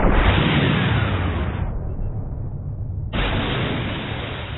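Heavy ship cannon fire and an explosion striking an enemy ship make a loud, sustained roaring blast that eases briefly, then a second forceful burst that slowly fades.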